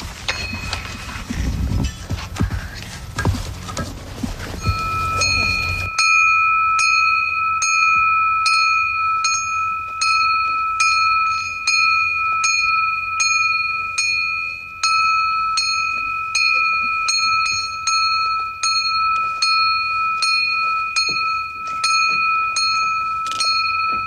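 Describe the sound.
A bell rung for a flag-raising at a sailing camp: many bright, evenly spaced strikes keep a steady ringing rhythm after a few seconds of noisy bustle.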